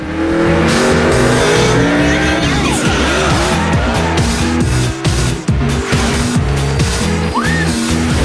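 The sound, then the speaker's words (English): A racing car roars off down an open, empty road, with a loud, steady engine roar, stepped shifts in the engine note and bursts of squealing tires throughout. “Maggie roars out of the ground in Tripp's racing car and down the open, empty road ahead of her.”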